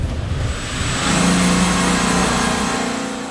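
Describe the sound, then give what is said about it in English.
A car's engine hums steadily as it drives through the village of Buchenbach. The mid-pitched drone swells slightly partway through, then holds its level. “So right now, we are driving through the village of Buchenbach towards the workshop where our mechanic AJ is working.”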